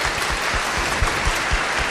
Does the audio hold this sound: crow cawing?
no